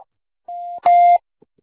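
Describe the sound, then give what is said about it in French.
Voicemail beep from an Orange messaging service: two steady electronic tones in a row, the second louder and slightly longer with a brighter edge, followed by a couple of faint clicks. “Veuillez laisser votre message après le bip.”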